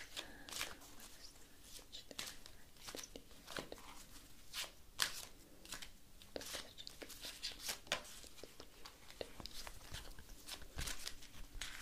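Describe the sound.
A deck of fortune-telling cards is shuffled and handled in soft close-up, giving many crisp papery riffles and flicks in an irregular, continuous rhythm at a quiet level.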